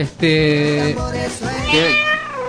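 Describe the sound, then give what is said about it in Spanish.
An electronic toy cat meows twice, the first a drawn-out, steady tone and the second a longer call that wavers in pitch, loud and clear with no talking. “Ahí está, el gato electrónico.”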